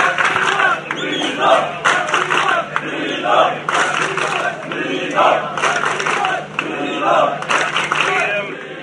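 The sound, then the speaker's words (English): Noisy protest crowd, many voices shouting together in rhythmic, repeated surges, loud and dense, like chanting that rises and falls in waves. “These noisy protests were repeated daily.”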